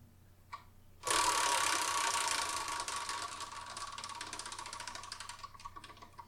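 A prize wheel spins with a dense, rattling run of clicks that starts abruptly and continues for about five seconds, gradually softening.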